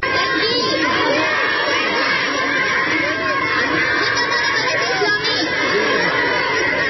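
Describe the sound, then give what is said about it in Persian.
A crowd in Kunduz welcoming the Islamic Emirate, shouting Allahu Akbar: a dense, continuous mass of raised voices and cheering, steady and loud throughout. “اما در نقطه دیگر، در گوشه ای از شهر قندوز نیز افرادی با استقبال از دولت موسوم به امارت اسلامی صدای الله اکبر سر دادند.”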